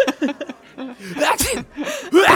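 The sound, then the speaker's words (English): A sneeze bursts out as a sharp, noisy puff, set among voiced vocal sounds and short bits of talk that rise to a loud, breathy finish. “They're going to be sneezing.”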